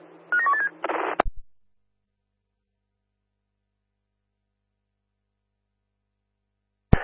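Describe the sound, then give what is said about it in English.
Touch-tone dialing of a telephone number: a quick run of a few short beeping keypad tones, then a brief burst of noise and a sharp click, followed by long silence that ends in another click. “Can you please give us a call on 63086? By dialing now.”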